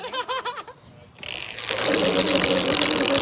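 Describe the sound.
A prize wheel is spun on a game show. A quick run of ratchet-like clicks lasts under a second, then a louder, sustained rush of noise takes over and holds to the end.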